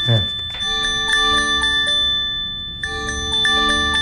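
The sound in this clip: An iPhone earthquake alert tone in Colombia plays a loud, bright series of repeated chiming tones. It pauses briefly, then starts again.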